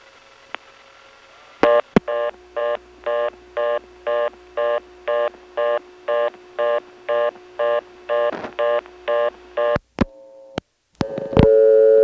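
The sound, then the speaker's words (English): Step-by-step telephone switching equipment on a long-distance trunk dialing toward a reorder: a long, evenly spaced string of short tone bursts framed by sharp clicks. More clicks and a changed tone follow as the sender drops out. “Now that just doesn't sound like an NX1 to me. It sounds like a step camera system dialing something to go to a reorder and then the sender drops out.”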